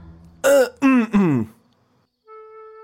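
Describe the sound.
A man coughs and clears his throat awkwardly in an audio drama: three short, voiced throat-clearing bursts in quick succession, then a faint steady tone.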